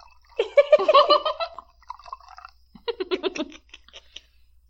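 Champagne being poured, heard as close, crackly liquid and fizzing sounds in two busy stretches separated by a quieter pause, with no talk over it.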